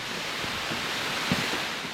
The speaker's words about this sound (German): Ein Wasserfall unterhalb eines Klosters, eines sehr berühmten Klosters.